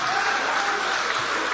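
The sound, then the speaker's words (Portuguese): A church audience applauds, a dense, steady wash of many hands clapping that holds at an even level from start to finish. “Levante a mão então e aplaude.”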